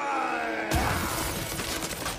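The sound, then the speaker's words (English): A cartoon effect of ice being smashed by a Viking's club: one sudden, loud shattering crash that spills into a sustained glassy crackle of breaking ice. “That big Viking is about to smash the ice with his club.”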